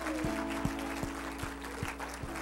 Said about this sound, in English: Everyone shout amen. Amen. Give Jesus one more good hand clap of praise.